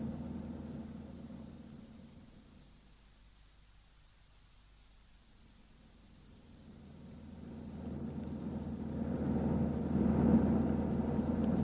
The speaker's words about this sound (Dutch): Moet ik erheen rijden of zal ik hier stoppen? Nee, rijd er maar in